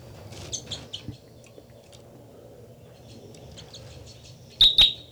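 Bird song with a few faint, high chirps early on over a steady low hum, then two loud, sharp, high-pitched notes close together near the end.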